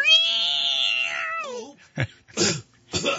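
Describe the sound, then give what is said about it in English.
A person's voice imitates a cat meowing: one long, drawn-out, high-pitched meow drops in pitch at the end, followed by a few shorter, harsher meow-like bursts. “Meow, meow, meow, meow, meow, meow, meow, meow, meow, meow,”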